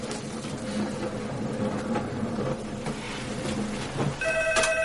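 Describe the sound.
A telephone rings in a short electronic tone near the end, over a dense, steady wash of background noise.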